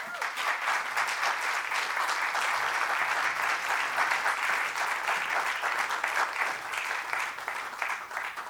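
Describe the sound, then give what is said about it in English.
Audience applause at a Free Library of Philadelphia event, a steady, dense wash of many hands clapping that holds at an even loudness for the whole stretch with no break. “let us again give Chris a round of applause”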